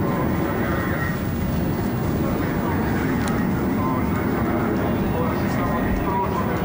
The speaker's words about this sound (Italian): Aprono il cardioide, disegnano un cuore, è l'affetto della pattuglia delle Frecce Tricolori per Genova.